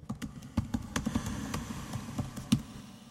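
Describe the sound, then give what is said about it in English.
Typing on a computer keyboard as a short phrase is entered: many quick, light key clicks in an uneven rhythm, faint and alone. “So what if I type in, and I'll have to put my mic down to do this. I type in... Famous last words?”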